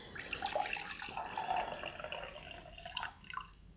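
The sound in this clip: Beer poured from a jug into a drinking vessel makes a faint, continuous splashing gurgle for about three seconds, then thins out into a few small trickles.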